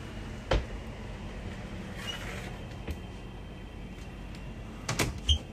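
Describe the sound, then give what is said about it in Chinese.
A faulty motorized door of a CT scanning room opens on its own with a few dull clunks and knocks over a steady low hum, with a brief burst of mechanical noise in between. “这个才是把它关上，但它没事它就会开。电动门”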